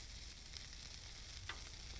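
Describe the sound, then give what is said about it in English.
A burger patty fries in a pan over heat turned up to just under medium, giving a faint, steady sizzle and crackle throughout with a brief tap partway through. “All right, we're going to flip some of our burger. Turn the heat back up.”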